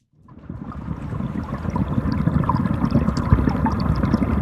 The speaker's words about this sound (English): Hear that? Yes, it's the sound of water, but it's not just any water. That's what the Chicago River sounds like.